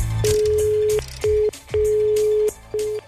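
A telephone call goes through with a steady mid-pitched line tone sounding in four pulses, long, short, long and short, with clicks at the breaks between them.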